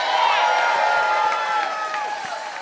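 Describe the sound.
A crowd at the Gathering Space in Seattle cheers and applauds to welcome the band the OCs, a loud, sustained roar of voices with high whoops and whistles riding over continuous clapping.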